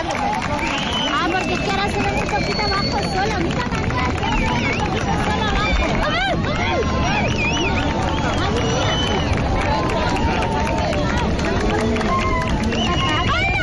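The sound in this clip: A crowd on La Victoria beach in Cádiz cheers at an eclipse's maximum. Many voices, shouts and whistles blend into a dense, steady roar that lasts throughout.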